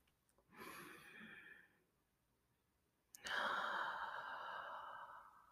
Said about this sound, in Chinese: 我希望邀请你跟我一起进行一个长长的、深深的、大大的呼吸